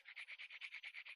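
Toy blocks slide against each other in a quick, even series of about ten faint, rasping scrapes, like rapid brushing strokes.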